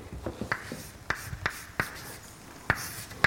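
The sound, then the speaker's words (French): Writing out an equation by hand during a maths lecture: a string of short, scratchy strokes and sharp little taps at an uneven pace, fairly quiet and with nobody talking. “Alors je vais vous écrire ce que ça dit.”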